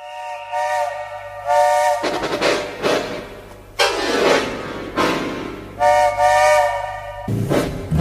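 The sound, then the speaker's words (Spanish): Steam whistle of a century-old locomotive in Buenos Aires province sounds in a few long, bright, tonal blasts, with loud bursts of hissing steam between them. “En la provincia de Buenos Aires hemos visto en estos días una de las imágenes más hermosas de la semana, una locomotora a vapor centenaria que vuelve a correr con ese sonido inconfundible.”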